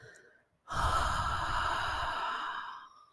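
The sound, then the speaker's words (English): A long, breathy exhale through a wide open mouth, a steady rushing whoosh lasting over two seconds before fading out, after a short faint breath. “Opening that mouth wide and giving a nice long exhale,”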